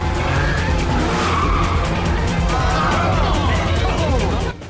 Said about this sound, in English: He slams the 350Z into the Mustang in an attempt to push Sean off the road. DK, his features contorted in rage, hurtles past Sean. The 350Z skidding about the road as he drifts through more bends.